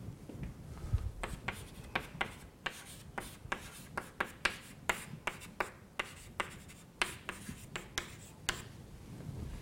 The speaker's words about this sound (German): Gut, ich schreibe es jetzt nur noch mal hin.